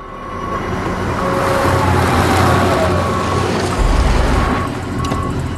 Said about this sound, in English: She stops scrubbing and senses a car driving up the road.